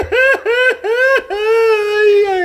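A person crying loudly: three short wailing sobs, each falling in pitch, followed by one long, drawn-out wail. No other talk is heard.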